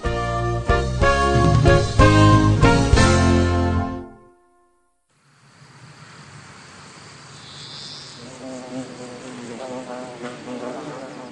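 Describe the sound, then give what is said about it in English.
Small black and yellow honeybees buzz as they fly from flower to flower on a warm, sunny day, a steady, low droning hum that follows a passage of music and a short silence. “It is a warm, sunny day. The honeybees are hard at work. These small black and yellow insects fly from flower”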